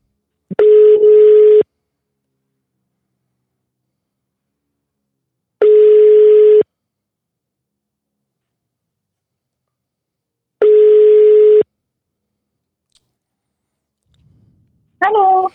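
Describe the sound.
Telephone ringback tone while calling someone: three long, steady single-pitched beeps, each about a second long and spaced roughly five seconds apart, with silence between them, then a brief different sound as the call connects.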